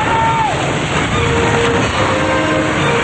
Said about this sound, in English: Janice looks back to see water splashing up onto the stretcher, and Carter falls when another wave crashes into him.